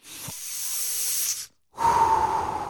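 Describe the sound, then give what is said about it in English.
A deep cleansing breath: a long, airy inhale, a brief silent pause, then a fuller, louder hissing exhale, heard alone. “let's all take a deep cleansing breath.”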